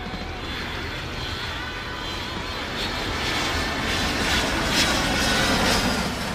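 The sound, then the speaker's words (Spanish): An airplane taking off, heard as a dense, steady engine roar with broad rumble and hiss that grows louder partway through and then holds. “Viajaremos a lugares lejanos, así que abróchense bien los cinturones, que vamos a despegar.”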